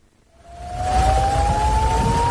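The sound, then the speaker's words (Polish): Air-raid alarm siren sounding in Israeli cities in the early morning: a steady wailing tone fades in, grows loud within about a second and slowly climbs in pitch over a low rumbling background. “Syreny alarmowe, które nad ranem rozległy się w wielu izraelskich miastach, były dla Izraelczyków kompletnym zaskoczeniem.”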